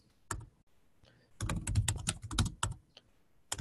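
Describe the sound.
Typing on a computer keyboard while entering text into a database field: a couple of isolated keystrokes, a pause, then a rapid flurry of clicks, followed by a few final scattered taps.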